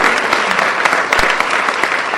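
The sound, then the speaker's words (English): Audience applause: a dense, even roar of many hands clapping, loud and sustained for the whole stretch with no talking over it. “fortunately we're able to get the applause there, stop at the right time.”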